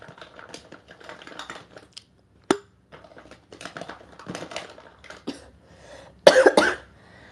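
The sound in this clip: A person coughs in a short, loud burst near the end. Before it come quieter rustling, light tapping and one sharp click.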